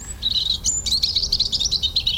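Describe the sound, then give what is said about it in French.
A European robin sings a thin, high-pitched warble of rapid twittering notes that runs almost without a break over a low background rumble. “le rouge-gorge a longtemps été un farouche oiseau des bois qui ne se rapprochait des maisons qu'en hiver”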